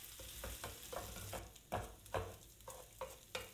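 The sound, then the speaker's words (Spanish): A spoon stirs pork ribs with sofrito, mushrooms and rice in a sizzling pan for a mountain-style rice dish. Many repeated scraping strokes sound over a steady frying hiss, with no talking. “Ahora estoy removiendo un poco y mezclando la costilla con el sofrito mm, y las setas y el arroz”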